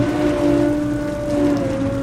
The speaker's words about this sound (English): The boat motor winds as a big winch draws in a 250-foot net.